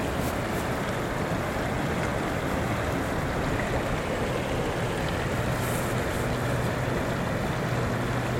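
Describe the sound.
A clear, shallow stream flows gently across a mountain plateau, making a continuous soft rushing and burbling wash. It stays steady and even throughout, with no voices or other sounds.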